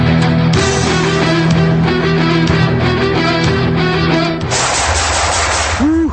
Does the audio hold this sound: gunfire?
yes